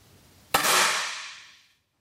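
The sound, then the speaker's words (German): A rifle shot at a shooting range: one sharp, loud crack with a long hissing tail that fades over about a second, then the abrupt start of another shot at the very end. “Sie schiesst 3 Mal. Einmal fast in die Mitte, die beiden anderen Mal nicht ganz.”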